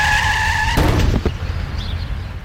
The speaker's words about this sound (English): This is the sound of a child being hit by a car at 40 miles an hour.